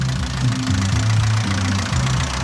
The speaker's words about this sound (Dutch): Nee, oké, ik trap hem weer aan in de versnelling.